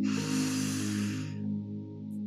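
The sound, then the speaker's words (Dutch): A deep inhalation through the nose during a guided meditation: one long, airy breath lasting about a second that fades out, over soft, sustained low music tones. “Nog een laatste keer inademen langs de neus.”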